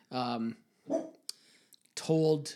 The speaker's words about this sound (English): that's our dog